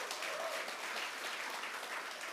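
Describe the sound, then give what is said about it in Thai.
Audience applause fills a company event hall after a speaker on stage calls for it, a dense, steady wash of many hands clapping at once that holds at an even level throughout, with no voices standing out. “ปรบมือสิครับ”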